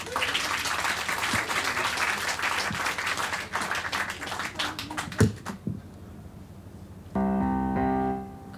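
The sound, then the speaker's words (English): Audience applause at a comedy show, a sustained burst of clapping that dies away after about five seconds. A short stretch of music follows near the end. “please put your hands together for Josephine and her ironing board.”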